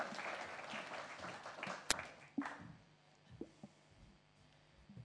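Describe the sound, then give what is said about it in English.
An audience claps to welcome guests joining the host on a couch. Dense clapping fills the first couple of seconds, then fades into quieter scattered sounds and a few soft thumps. “So as we go into Confident Families this morning, why don't you put your hands together?”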